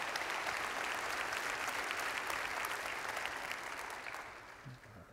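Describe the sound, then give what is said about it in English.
Applause welcomes the University of West Florida basketball team, the Argos: dense, sustained clapping from many hands for about five seconds that tapers off near the end. “Give them a good hand. Let them know that you're glad they're here.”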